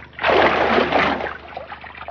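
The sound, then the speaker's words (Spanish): Bathwater sloshing over the rim of a bathtub as a man lets himself drop backward into it, one broad splashing surge that rises quickly and gradually fades. “Se deja caer hacia atrás haciendo que el agua rebose la bañera.”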